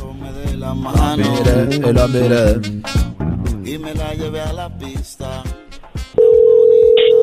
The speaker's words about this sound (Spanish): Ahí se está marcando, ¿ok?